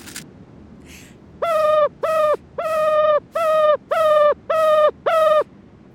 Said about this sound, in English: Okay, that was the call of a ruffed grouse. It's a non-migratory bird that can eat all sorts of poisonous plants that other birds simply can't stomach.